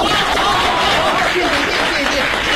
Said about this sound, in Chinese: 谢谢大家的掌声啊